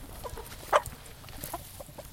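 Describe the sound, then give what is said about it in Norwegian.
A few faint, short clucks come from hens on a farm, part of a flock of 30 to 40 that roam under apple trees, over a quiet background. “Ja, nå er vi hos hønene. Vi har mellom 30 og 40 høner. De går ut under epletrærne.”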